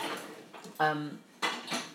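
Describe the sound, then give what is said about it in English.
Dishes and cutlery clattering while a dishwasher is loaded: a few sharp clinks and one ringing knock of crockery, with quieter rustling between them. “I didn't mean to put that plastic lid in there, in the dishwasher.”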